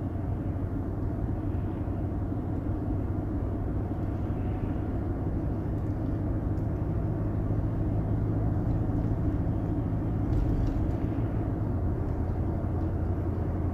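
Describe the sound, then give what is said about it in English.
A car drives along dark Pennsylvania back roads at night, giving a steady, even low rumble of engine and road noise that holds throughout without change or talk. “As I drive through these dark Pennsylvania back roads doing my little podcast here, I look into the glowing lights of these homes.”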